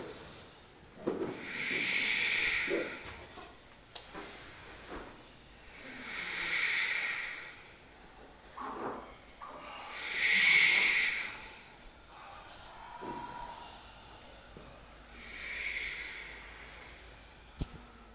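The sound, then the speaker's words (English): Forceful breathing in and out through the nose during a yoga purification practice, slow repeated breaths with a hissing, rushing edge that swells and fades in a steady rhythm. “A purification practice with the breath in and out through your nose.”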